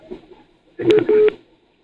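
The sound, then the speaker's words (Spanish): Telephone signal of an incoming call to a radio show: two short, bright electronic tone bursts in quick succession, the second slightly longer, after a faint low murmur. “Ahí está entrando otra ya, otra llamada.”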